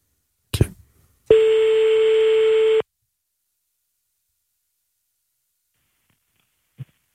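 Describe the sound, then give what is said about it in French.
Telephone ringback tone as an outgoing call is placed: a sharp click, then a single steady, buzzing tone held for about a second and a half before it stops, leaving silence broken by another faint click. “On appelle Sexy Chocolat? Allez, on teste. Allez, c'est parti.”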